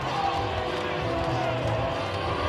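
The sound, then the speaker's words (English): A baseball crowd gives a manager a big ovation as he walks off the field. The dense, steady roar of applause and cheering holds an even level while a voice talks over it. “Leland has absolutely gotten his money's worth tonight, and he's getting a big-time ovation walking off, and even a round of applause from some of his players down in the dugout.”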